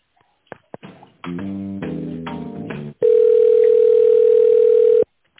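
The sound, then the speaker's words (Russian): Telephone tone while a call is being transferred: a few clicks and a short stretch of buzzy tonal sound, then a loud, steady mid-pitched tone that holds for about two seconds and cuts off. “Давайте я вас сейчас соединю с канцелярией”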